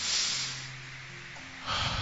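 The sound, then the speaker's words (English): Faint breathing in and out during a guided prayer with hands on the heart: soft, airy exhalation that fades, then a rising rush of breath near the end. “begin to breathe in. Breathe in and out.”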